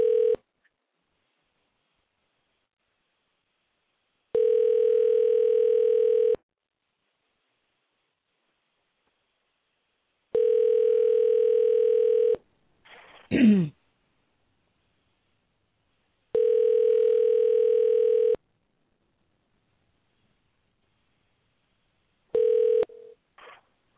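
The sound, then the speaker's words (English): A telephone line tone sounds in steady, mid-pitched two-second bursts separated by longer silences, repeating several times, with a short swooping electronic chirp between two of the bursts. “Let's try dialing again.”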